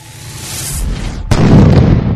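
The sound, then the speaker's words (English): A blast of pure solar energy from a sun belt strikes a stereo: a rushing, swelling roar builds, then breaks into a sudden, louder sustained burst of noise partway through. “Using his sun belt and targeting the stereo, Sun King lets loose with a blast of pure solar energy.”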